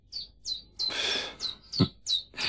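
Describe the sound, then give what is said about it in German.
A chiffchaff singing: a series of short, high, chirping notes that each drop in pitch, repeated at a steady, uneven pace, with a brief rustling burst in the middle. “Das ist ein Zilpzalp.”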